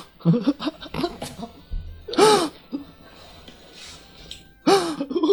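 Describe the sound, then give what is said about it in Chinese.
A person imitates the strained, wheezing in-breath of an asthma attack. Two loud, harsh gasping inhalations with a whistling edge stand out, separated by softer breathy sounds. “所有的哮喘病人在犯病的时候都是这样，就是这样。就你听到哼的那声”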